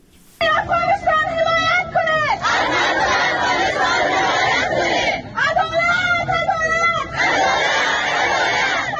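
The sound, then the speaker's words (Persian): Afghan women who moved to Pakistan after the Taliban returned to power stage a protest in Islamabad. A loud crowd of women's voices chants and shouts in rising, repeated bursts, with a steady hubbub of the crowd underneath. “این صدای اعتراض زنان افغان است که پس از حاکمیت دوباره طالبان به پاکستان مهاجر شدند.”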